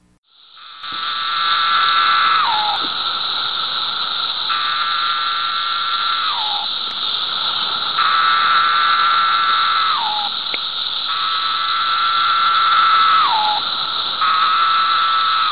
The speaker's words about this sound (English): I've seen people already hearing the Brood 3 17-year cicada. So I gathered some sound of them from the internet so we could listen and hear what it sounds like.